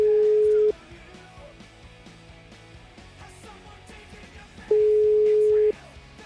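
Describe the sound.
Telephone ringback tone on an unanswered call: two steady, mid-pitched beeps roughly four seconds apart, each lasting under a second, sounding over a dense, busy background.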